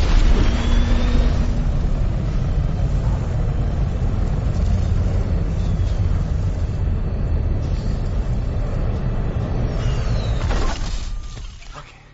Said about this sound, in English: Seriously, just going to start off with 1% thrust capacity. In 3, 2, 1.